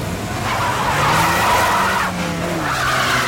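Tyres skid and an engine roars as a Renault 25 getaway car flees an armed robbery, a loud continuous screech with a steady engine tone lasting about three seconds, with no voices.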